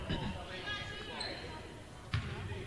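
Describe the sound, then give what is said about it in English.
A few low, dull thuds of a basketball dribbled before a free throw in a boys' basketball game, heard under a voice talking and the murmur of the gym. “One dribble, two, make it three.”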